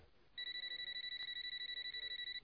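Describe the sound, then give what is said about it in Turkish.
A telephone rings with a rapid electronic trill: two steady high tones pulse quickly and evenly for about two seconds after a short quiet start. “Telefonum çalıyor.”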